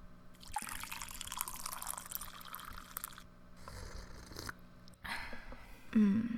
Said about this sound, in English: Hand me that coffee pot, babe.